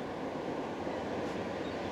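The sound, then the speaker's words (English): The ocean roars in a steady, continuous rush of broad noise with no distinct breaks, like surf blended with wind. “No, I knew that you could find God right out here. Roar of the ocean.”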